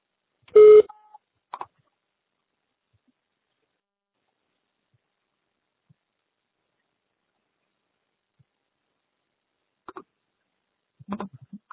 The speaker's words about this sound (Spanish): Para añadir un mensaje borrado, por favor, grabe su mensaje después del tono.